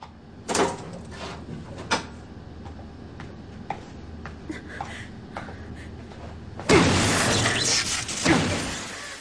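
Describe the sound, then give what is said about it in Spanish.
An emergency axe smashes a control console, which is left sparking and smoking. A few sharp knocks and clatters are followed by a louder, sustained crash near the end. “Destroza con él el panel de control.”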